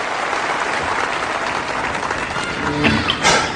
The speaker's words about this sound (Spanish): Demos un fuerte aplauso al nuevo grupo